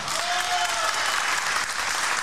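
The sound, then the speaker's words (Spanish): Audience applause rises as a thick, continuous wash of many hands clapping, staying fairly loud and even throughout the short stretch. “El vino y la Coca-Cola, aplauso. Aplaudan.”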